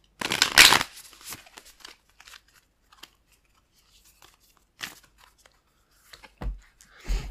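Moonology oracle cards being shuffled: a loud riffling burst at the start, then scattered soft card flicks and a few brief rustles later on.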